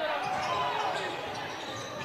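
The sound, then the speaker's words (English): Basketball dribbled on the court during a Rockvale game, the bounces buried under a dense, steady wash of crowd noise and an excited commentating voice. “Brings it between the circles. Nice dribble to avoid contact.”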